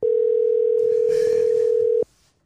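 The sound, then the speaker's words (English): Telephone dial tone heard during a phone call: a single steady, loud, unbroken tone that lasts about two seconds and then cuts off abruptly, leaving faint background noise. “So I'm going to call Armando.”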